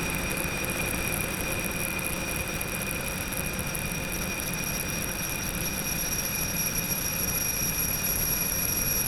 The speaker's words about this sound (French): Remise de gaz.